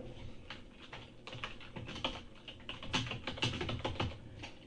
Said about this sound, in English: Okay, I'm just going to type in, I will be here.